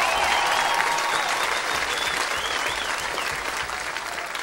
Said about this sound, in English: For all the young women graduating today, make some noise for all the young women in class 2018.